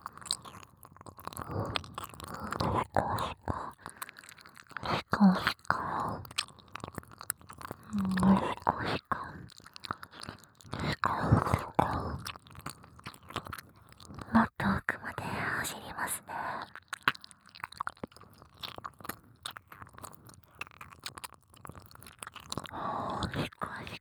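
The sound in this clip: ASMR mouth sounds of nibbling and chewing on an ear: close, soft, wet crunches and bites repeat many times, with whispering running throughout.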